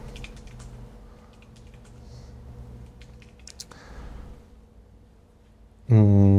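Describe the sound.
Someone types code on a computer keyboard with quiet, scattered clicks and short pauses, and a sudden loud tone cuts in at the very end.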